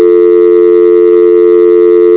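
A telephone tone sounds during a call transfer: one loud, steady, unbroken electronic tone held for the whole stretch with no voices.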